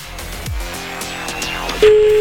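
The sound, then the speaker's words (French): Ringback tone of an outgoing telephone call: a steady, low electronic tone starts after a short run of sweeping electronic whooshes and holds, louder, until the end. “On appelle quelqu'un, allô. Ah bah ça sonne.”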